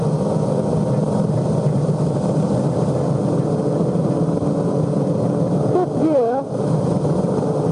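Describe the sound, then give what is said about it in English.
A Formula One car engine running at high revs in fifth gear, around 10,000 rpm, on a fast, bumpy track: a steady, loud, droning roar held without a break, with a man talking over it. “Maximum speed, 10,000 revs in fifth gear. In Formula One. We're in third because it's uphill. Fifth gear here. Very fast.”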